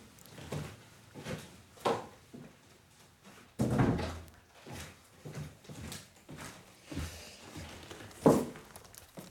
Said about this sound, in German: Ich muss mal ganz schnell mein Fenster zumachen, weil es reinregnet.